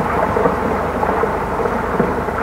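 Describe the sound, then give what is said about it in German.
Rockfall breaks loose high on a mountain above a village and tumbles down. It makes a deep, dull, thunder-like rumble that stays loud and unbroken throughout, with a rough hiss over the low roar. “Während des Interviews plötzlich ein Donnergrollen. Oben im Berg haben sich wieder Felsbrocken gelöst und stürzen mit einem dumpfen Dröhnen nach unten.”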